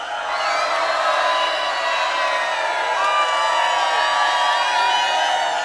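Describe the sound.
A crowd shouting and cheering on cue at a live radio event, a loud, dense wall of many voices that holds steady for about six seconds without a break.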